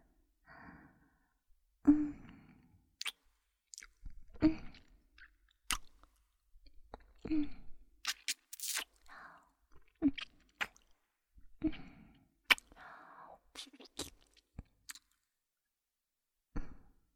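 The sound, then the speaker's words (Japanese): ASMR nibbling and sucking on the left earlobe, heard very close: soft wet smacks, squishy clicks and breathy sighs come in many separate bursts with quiet pauses between. “左の耳たぶも甘噛みして、チュパスいたしますわ。”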